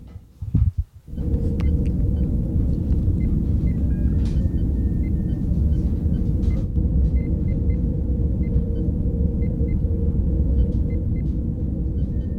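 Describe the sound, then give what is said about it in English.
Deep, steady engine rumble of the Star Trek starship Enterprise, a continuous low drone with a faint hum layered over it. It settles in after a brief uneven start and holds constant to the end. “I hope some of you left this up just so you felt like you were driving on the Enterprise.”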